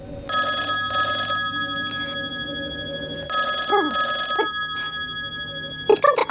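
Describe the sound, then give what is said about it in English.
A telephone rings after a number is dialed. Bright, bell-like rings come in paired bursts, two double rings separated by a pause, and a short burst of other sound follows at the very end. “I'm dialing now.”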